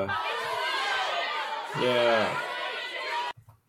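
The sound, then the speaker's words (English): Angry crowd sound effect: a loud, dense mass of shouting and grumbling voices, with one louder yell rising out of it near the middle, before it cuts off abruptly near the end. “that's not the game show crowd I wanted, but hey, that's the angry wrong crowd”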